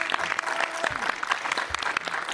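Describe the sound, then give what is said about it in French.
Audience applause fills the whole span as steady, dense clapping at an even, fairly loud level. “Eh bien très bien, vous pouvez l'applaudir s'il vous plaît.”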